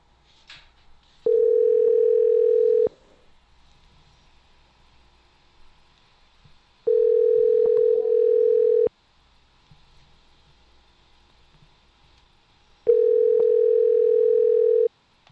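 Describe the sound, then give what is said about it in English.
Telephone ringback tone after dialing a number: three long, steady mid-pitched tones, each about two seconds, separated by longer quiet gaps. “All right, let's call this number.”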